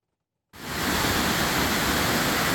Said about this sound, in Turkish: Kırşehir'in Akpınar ilçesinde kuraklık nedeniyle 7 yıldır akmayan Kanlıgöl Şelalesi bu yıl yurt genelinde etkili olan yağışların etkisiyle yeniden çağlamaya başladı.